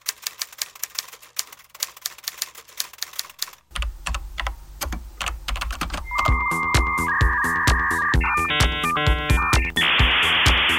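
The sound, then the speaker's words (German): Typewriter typing: crisp, irregular key strikes clatter at a lively pace, then a denser run of mechanical clacking gives way to sustained electronic tones and a hissing burst. “Die Schreibmaschine, mit der ich noch meine erste Studienarbeit geschrieben habe.”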